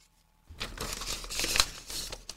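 Gift wrapping being torn and crumpled off a bottle of blood orange Weissbier, a steady crinkling and rustling of paper that starts abruptly after a short silence and continues to the end.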